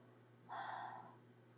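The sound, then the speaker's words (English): A single heavy breath drawn close into a microphone, a breathy rush lasting about half a second that swells abruptly and fades, with faint steady hiss around it. “breathing heavily into one microphone, and I have the other one down on the floor. That's why you're like, and my legs moving and all that jazz.”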